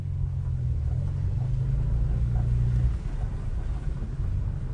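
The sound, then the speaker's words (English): A BMW E46 M3 engine drones while the car drives on ice: a steady, deep low-pitched rumble that holds for a few seconds and then eases slightly near the end, with no voices. “Another run in the E46 M3.”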